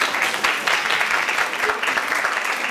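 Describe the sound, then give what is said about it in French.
An audience claps for a group of pupils presenting a project at a school event. The clapping is dense and brisk, with sharp individual claps standing out, and stays steady throughout. “Voilà, vous pouvez les applaudir.”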